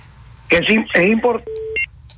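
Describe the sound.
Telephone keypad tones dial a call after a brief burst of voice: a couple of clean electronic beeps, the first held a little longer than the short second one.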